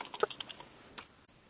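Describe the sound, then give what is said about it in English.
Faint typing on a computer keyboard: a quick run of light key clicks, then a single later click, with no talk. “I'm typing this into the notes as well”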